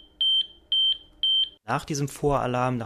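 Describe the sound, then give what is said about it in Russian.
A patient health monitoring system sounds its preliminary alarm: three steady, high-pitched electronic beeps in an even rhythm. A person then starts talking. “Едва отклонения параметров от нормы превышают определенное значение, включается сигнал тревоги. Сначала предварительный, говорит Янсен.”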